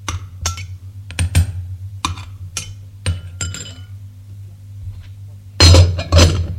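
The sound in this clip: Spoon clinking against a cup as two spoonfuls of sugar are stirred into coffee with milk. Many sharp, bright taps fall in an irregular rhythm over a steady low hum and grow louder near the end.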